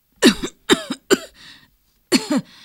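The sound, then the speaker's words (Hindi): A woman coughs in a smoke-filled room while fanning a clay cooking stove: a few harsh, rasping coughing bursts in quick succession, a quieter one, a short pause, then a final double cough, with no talk. “खांसते हुए माँ बोली”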